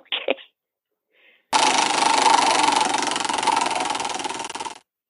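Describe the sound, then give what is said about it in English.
A prize wheel spins with a rapid, steady rattling clatter of ticks that runs for about three seconds and then stops abruptly, after a couple of short clicks. “So hang on while I spin the wheel. Do you actually have a wheel? Of course. Because here it goes.”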